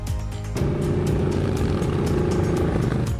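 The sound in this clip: Motorcycle engines rumble and rev at a bikers' gathering against bullying. A loud, low, throbbing drone thickens after a brief opening and holds steady, with faint ticking on top.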